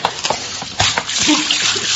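Water from a pitcher splashes over an unconscious man, a few sloshing, splattering bursts of liquid in quick succession, moderately loud.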